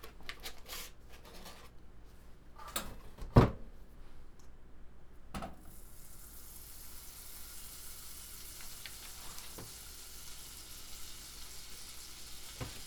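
Butter sizzles in a pan while a wooden spatula stirs it, giving a soft, steady frying hiss with a few sharp clicks and scrapes early on. Partway through, the sizzle turns brighter and more even. No one speaks.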